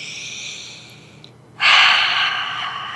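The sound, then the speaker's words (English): A deep cleansing breath: a faint, airy breath gives way to one loud, long rushing hiss of air that holds steady and slowly eases off, with no talk. “Take a big cleansing breath”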